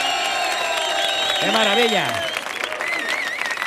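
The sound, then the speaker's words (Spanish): A large live audience cheering and applauding loudly, a steady, dense roar that lasts throughout, while a voice exclaims over it partway through. “masificación de público que tenemos hoy, que suena así de fuerte, mira cómo suena el público de hoy”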